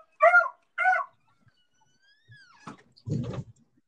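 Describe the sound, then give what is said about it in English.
Two sharp, loud dog barks in quick succession, followed after a pause by a few fainter knocking and rustling noises. “Is that a dog? Yeah, it was a dog.”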